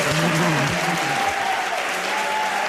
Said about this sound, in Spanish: Con público aquí presente, sí, sí. ¿Lo está pasando bien la gente? Muy bien, además... Vamos a pedir que hagan ruido, claro.